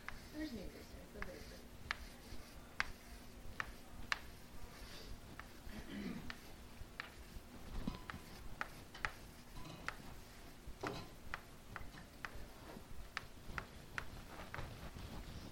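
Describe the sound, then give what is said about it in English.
Writing on a board with a pen or marker, heard as a string of quick, light tapping and scratching strokes at an irregular rhythm, fairly faint against a steady low hum. “Here, let me write it. That might be easier. Hopefully they don't mind me writing on their board.”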